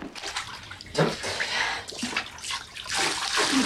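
Water is poured from a copper over two children sitting in a tub, giving a continuous rushing splash with a few louder surges of pouring.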